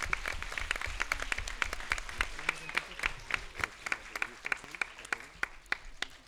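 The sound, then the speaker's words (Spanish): Applause from a school class: dense, steady clapping from many hands that gradually thins into sparser, distinct claps toward the end. “Un fuerte aplauso, muy bien.”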